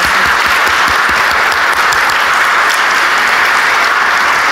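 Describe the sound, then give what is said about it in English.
An audience gives a round of applause after speakers are thanked: loud, steady, even clapping that fills the whole stretch without a break and with no voices on top. “Great. Let's give them a round of applause.”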